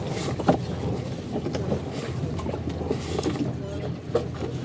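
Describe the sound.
A motorboat pulling away from a dock, its engine a steady, loud, low rumble mixed with continuous rushing wind noise.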